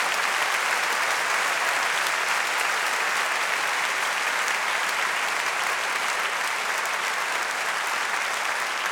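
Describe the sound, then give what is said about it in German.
An audience claps continuously, a loud dense wash of many hands holding steady for several seconds without pause, with no talking heard over it. “Ich brauche euer Klatschen, okay?”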